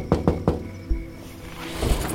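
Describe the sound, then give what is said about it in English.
Three quick, sharp knocks strike a window on a quiet rural Kansas night, followed by a couple of duller, isolated thumps against a low, hushed background. “In the quiet of a rural Kansas night, Penelope Vance wakes to a knocking at her window.”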